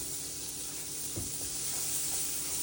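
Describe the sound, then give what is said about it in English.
Buttered bread toasts in a pan with a soft, steady sizzle. The faint, even hiss is broken by a single dull thump midway. “Butter your bread. I prefer to toast mine on the pan.”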